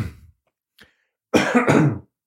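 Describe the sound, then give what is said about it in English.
Two harsh, rough coughs in quick succession from someone with something caught in the throat, loud and abrupt, after a short stretch of near quiet with a faint brief noise. “I got something in my throat tonight. I don't know. I'm coughing a lot.”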